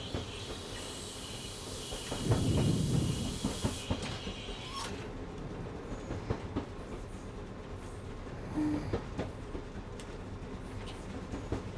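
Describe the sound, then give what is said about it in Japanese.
Steam locomotive running, with exhaust blasts, draft and wheels striking rail joints: a steady, dense mechanical rumble that swells louder for a short stretch early on, with scattered clicks through it and no voices. “蒸気たちの煙の奏でるブラスト音とドラフト音が、動輪が線路の継ぎ目をリズミカルに叩くジョイント音が、”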